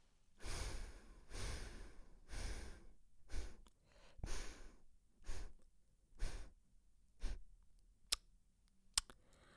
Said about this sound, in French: inspiration à droite. Expiration à gauche.